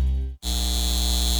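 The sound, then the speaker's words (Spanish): A data center gives off a steady electrical hum with a dense buzzing drone that drops out for an instant near the start, then resumes unchanged. “Este es el sonido de un centro de datos llevándose el agua de nuestra comunidad”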